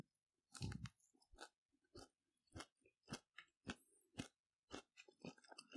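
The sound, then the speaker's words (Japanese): A cooked bird's beak is chewed with many crisp, crunchy bites at an irregular rhythm. The crunching is fairly faint and heard alone, without talk. “くちばしは正直、食べれるのかどうかよくわかんないんですが、ちょっとじゃあ、食べてみたいと思います。”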